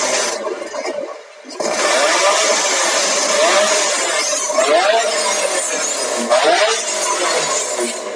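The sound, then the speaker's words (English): Car engine revving in a race-weekend pit garage: a loud, continuous roar with a few rising surges and a brief dip near the start. “don't rev it, mate”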